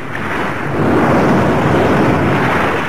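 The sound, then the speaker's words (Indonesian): Huge, hill-high ocean waves surge in a deep, roaring wash of surf, loud and continuous, swelling stronger after the first second and holding a heavy rumble throughout. “Tanpa disangka-sangka dan diduga, ombak setinggi bukit muncul siap menggulung para prajurit Sokawarni.”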